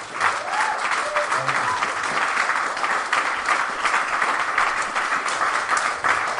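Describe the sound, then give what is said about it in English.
Audience applause at a San Diego salon event featuring touring speakers: sustained, dense clapping from a crowd holds a steady, fairly loud level throughout, with faint voices mixed in. “I think they deserve a big hand for traveling around the country.”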